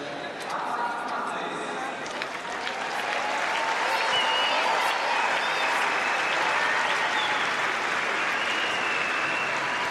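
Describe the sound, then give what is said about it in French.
Loud, steady clapping from a stadium crowd urging on a pole vaulter's world-record attempt at 6.32 metres, a dense sustained wash of hands that swells slightly after the first few seconds and then holds at full strength. “À 6m32, le public y croit, il tape dans les mains.”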